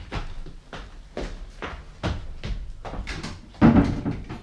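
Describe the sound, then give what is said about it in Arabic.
A door is being closed in an Egyptian radio drama of the Thousand and One Nights tales. A series of soft wooden knocks and clatters ends in a louder thud, with no talk over them. “اقفل الباب وراك.”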